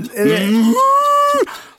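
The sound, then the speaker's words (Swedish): A woman imitates a cow mooing with one drawn-out, loud vocal moo that jumps up in pitch partway through, then breaks off. “Det är ju såklart en ko.”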